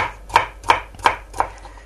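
A knife chopping vegetables such as potato and carrot into small cubes on a cutting board: four sharp, evenly spaced chops, each a crisp knock.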